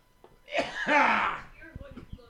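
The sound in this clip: Sputtering cough and throat clearing after a drink goes down the wrong pipe: a loud, harsh voiced burst, followed by a few fainter hacking clicks.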